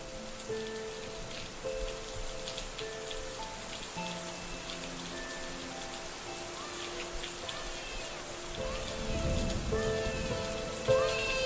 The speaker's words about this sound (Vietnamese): bỗng nhiên lại đổ mưa.